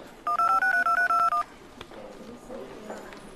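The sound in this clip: A telephone number is dialled on a keypad: a quick, evenly spaced run of loud beeping touch-tones, then a click and faint rustling.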